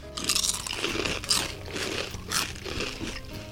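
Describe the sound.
Crunching of everything bagel with cream cheese flavored potato chips: many crisp, brittle crunches and bites in an irregular chewing rhythm, fairly quiet, with no talk.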